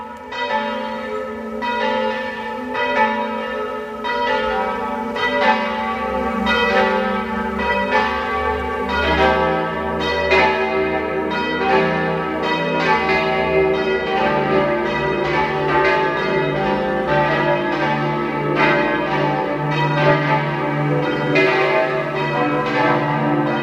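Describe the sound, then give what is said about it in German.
Church bells of a 15th-century parish church in Malz, South Tyrol, ring out at noon, several bells pealing together in a dense, continuous, loud clangour of overlapping strikes that carries on steadily throughout, with no voices. “Es ist 12 Uhr. Sie hören die Glocken der Pfarrkirche Maria Himmelfahrt aus Malz in Südtirol.”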